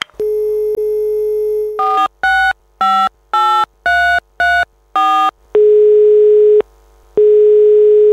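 Telephone dial tone holds steady, then a quick series of short beeps at differing pitches as a number is dialed. A long steady tone follows, breaks off briefly and resumes, loud and alone.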